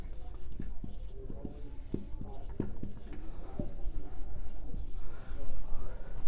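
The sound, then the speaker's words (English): Writing strokes on a board during a lecture on scripture, a series of short sharp scratches and taps over steady background noise. “well, I'll write it up here.”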